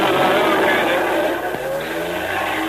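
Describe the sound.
A car drives off with a continuous engine drone. Its tone climbs steadily in pitch during the latter half as it pulls away.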